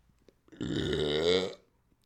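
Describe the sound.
A long, loud belch, one drawn-out burp just under a second in length that stays steady before trailing off, heard alone without any talk.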